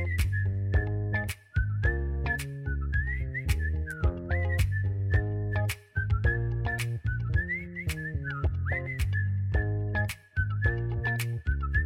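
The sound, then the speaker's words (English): Whistling carries a melody over a pop song, a clear high line with short slides between notes, riding on a steady beat and deep bass throughout. “Ooh, you got me whistling.”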